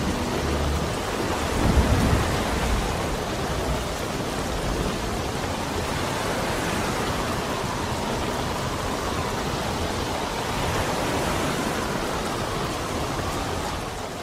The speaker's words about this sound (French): Ça, la mer est déchaînée.